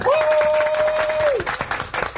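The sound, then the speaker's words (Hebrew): A crowd at a political rally breaks into applause, dense clapping with a long, high, steady whistle over the first half that drops off at its end. “בבקשה, מחיאות כפיים שלכם. איפה מחיאות הכפיים?”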